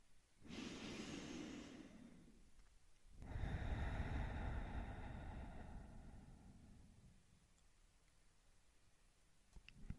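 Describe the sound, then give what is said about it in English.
A single deep breath: a slow, airy inhale lasting a couple of seconds, then a longer, fuller exhale that gradually fades away, soft and unhurried, with no talking. “So for this, let's take a deep breath in and a deep breath out.”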